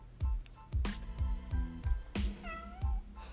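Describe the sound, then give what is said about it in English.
A pet cat meows once in a drawn-out, rising-and-falling call near the end, heard over steady, rhythmic low thumping. “Sorry, everybody, that's my cat.”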